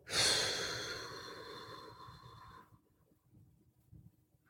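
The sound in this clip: A single deep exhale during a guided breathing exercise: a loud breathy rush that starts strong and tapers off over about two seconds, followed by quiet low rustling.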